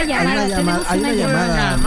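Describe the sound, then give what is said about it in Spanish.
A telephone rings for an incoming call with a musical ringtone. It plays a continuous, fairly loud melody with a sung vocal line that rises and falls throughout. “Hay una llamada.”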